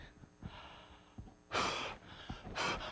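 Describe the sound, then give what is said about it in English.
Breaths blown into a breath-controlled device to shoot down targets in a video game test. Soft breathing noises give way to two strong, rushing bursts of air. “Like this, users shoot down the target using breath.”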